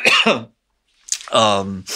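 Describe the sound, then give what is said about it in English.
Coughing interrupts a conversation: two harsh bursts separated by a short pause, the second rough and throaty with a voiced rasp. “Sorry, I have to cough.”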